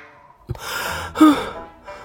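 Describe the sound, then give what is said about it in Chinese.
Heavy breathing from someone who has just climbed out from under a thick quilt: a few breathy exhales and inhales, with a sharp, louder gasp in the middle and a fainter breath at the end. “展昭就从厚厚的被子下边钻了出来，还在喘气。”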